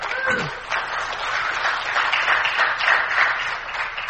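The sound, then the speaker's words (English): Audience clapping fills the whole stretch as steady, dense applause at an even level, with no pause or clear break. “thank you, but I know what that clap is for, really.”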